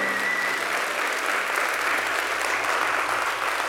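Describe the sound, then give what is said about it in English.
Audience applause welcomes a guest speaker, a professor and author, at a church apologetics event. Steady, even clapping fills the whole few seconds at a constant loudness. “So please give a warm welcome to Dr. Mikel del Rosario.”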